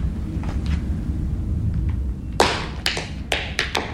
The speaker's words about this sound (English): This is captioned as complicated tap rhythm.